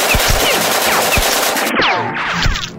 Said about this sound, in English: Now shoot him.